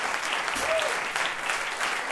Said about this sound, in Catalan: Aplaudiments per aquesta cançó tradicional, Yovka